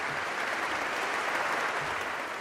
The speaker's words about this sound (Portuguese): E depois de agradecer e pedir aplausos para os artistas, Leão XIV acrescentou